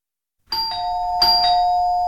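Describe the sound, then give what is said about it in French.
A doorbell is rung repeatedly by a visitor: two bright, ringing two-tone chimes sound in quick succession after a moment of silence, their tones lingering and overlapping. “Derrière la porte, mon visiteur s'excitait avec la sonnette, mais il se lasserait bien avant moi.”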